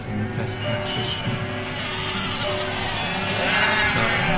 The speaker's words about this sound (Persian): صدای دامو از دور میشنوی که داره چرا میکنه